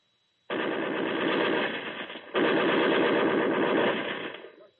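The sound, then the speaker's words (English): Machine gun firing at targets: two long bursts of rapid, dense rattling fire, the second slightly longer, before it tails off and stops. “Well, it's good shooting, Witherspoon. It's 8 targets out of 8. You can't do better than that. Ah, but what is it? A machine gun.”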